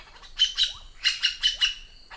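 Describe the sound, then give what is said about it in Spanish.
Magpie calls from a cooperatively breeding group: several bright, high chirping calls in two clusters, each a short burst with a quick upward-sweeping note, fairly loud and heard without speech. “Estas urracas tienen un sistema vocal asombroso. Los machos son los que más hablan y cada uno puede usar más de 60 tipos de vocalizaciones.”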